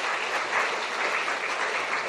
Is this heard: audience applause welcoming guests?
yes